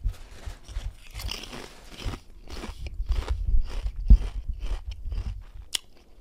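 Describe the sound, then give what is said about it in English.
Crisp crunching of barbecue-flavoured Lay's potato chips being bitten and chewed, many irregular brittle crackles at a moderate level, with one sharper snap near the middle and no talking. “This tastes like barbecue. Okay. Is it not Lay's? It is Lay's.”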